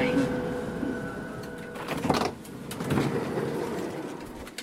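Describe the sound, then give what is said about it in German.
Train station ambience on an S-Bahn platform at Ismaning: a steady rumble with a high thin whine at the start and a couple of broad swells of rushing noise partway through. “ich habe ganz genau hingehört und ich habe rauskombiniert, dass du im Bahnhof in Ismaning bist.”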